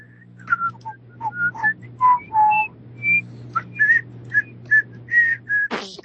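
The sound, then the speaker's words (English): A person whistles a happy tune: a lively run of many clear, bright notes that hop up and down in pitch, with a steady low hum underneath and a short noisy burst near the end. “Not nervous at all. Whistle in a happy tune.”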